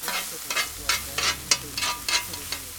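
Brazilian steak sandwiches sizzle on a grill at an outdoor food stand by a warehouse in Wadsworth, with many rhythmic scraping strokes over a steady frying hiss.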